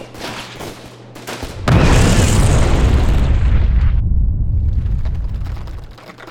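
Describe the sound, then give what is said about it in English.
A powerful explosion blast erupts as a sudden loud boom, followed by a dense roaring rumble that holds for a few seconds before slowly fading. “It created a blast so powerful that the floor bounced beneath me.”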